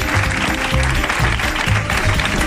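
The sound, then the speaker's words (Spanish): An audience applauds with dense, even clapping that holds at a steady, loud level throughout. “Aplauso.”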